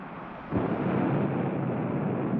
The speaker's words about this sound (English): Can he survive that blast off?